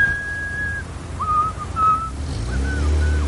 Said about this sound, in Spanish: Un joven de pelo rizado atraviesa silbando una calle cerca del Pirulí en Madrid.